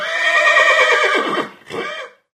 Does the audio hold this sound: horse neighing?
yes